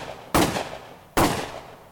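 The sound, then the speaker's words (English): Two sharp gunshots ring out, each a sudden loud crack that decays over a fraction of a second, separated by a brief pause. “the sound of 3 gunshots, and the world went dark.”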